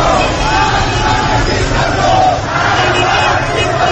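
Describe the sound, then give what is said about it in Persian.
Protesters at a street demonstration in Tehran shout slogans in unison, a loud, continuous roar of massed voices that swells slightly and dips briefly midway. “بنابر گزارش ها، تظاهرکنندگان مرگ بر دیکتاتور، نترسید ما همه با هم هستیم و شعارهایی در هواداری از میر حسین موسوی و مهدی کروبی را فریاد می”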